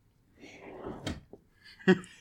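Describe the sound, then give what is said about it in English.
A drawer opening or closing: a low sliding rumble followed by a few sharp knocks, the last one the loudest. “You need to get inside this drawer called the bit drawer.”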